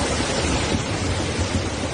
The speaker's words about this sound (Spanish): donde más llovió este lunes sin grandes incidencias es en la Safor, ríos de agua en plena calle.